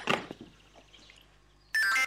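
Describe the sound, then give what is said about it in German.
A phone's message notification tone sounds as a bright, short electronic chime at the end, after a few quieter handling sounds. “Hey, Brandon hat gerade eine Nachricht geschrieben. Warte, ich lese sie dir mal vor.”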